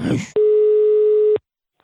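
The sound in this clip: A single steady telephone tone, one flat beep lasting about a second, heard while a call is dialed, just after a brief burst of voice.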